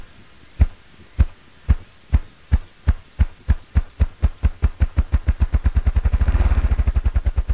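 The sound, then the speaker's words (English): Drumming of a male ruffed grouse standing on a fallen log at a young aspen and poplar forest edge: deep, muffled wingbeat thumps start slow and spaced, then speed up steadily into a rapid, loud rolling whir. “what you're hearing is a male ruffed grouse performing his drumming display. He's the size and shape of a large, rusty brown chicken, and he's standing on a resonant, fallen log”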